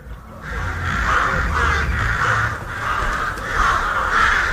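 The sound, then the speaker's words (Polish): Rooks cawing in harsh, raspy calls that repeat in a steady series of loud bursts with only brief gaps, and no voices heard. “Gawrony to uparte ptaki.”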